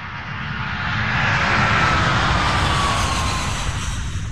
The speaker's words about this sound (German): Nachdenklich sitze ich im Flugzeug von Dhaka auf dem Weg zurück nach Deutschland.